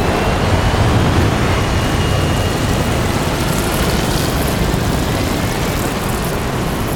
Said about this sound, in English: Three aircraft take off, kicking up black dust.